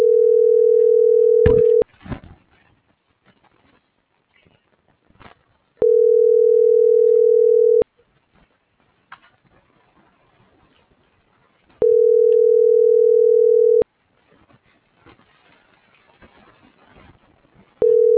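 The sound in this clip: Ringback tone of an unanswered telephone call before it reaches voicemail: a steady, loud, mid-pitched tone repeats in bursts of about two seconds, separated by roughly four-second gaps of faint rustling. The first and last bursts are cut off.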